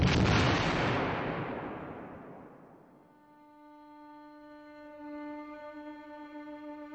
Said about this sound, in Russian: Сорвал предохранительную чеку и далеко швырнул гранату.